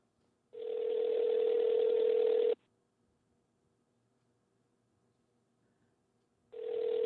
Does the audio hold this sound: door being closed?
no